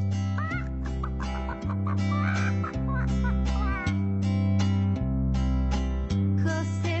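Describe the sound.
A hen clucks in short, scattered bursts over a bouncy music track with a heavy, steady bass beat that stays loud throughout.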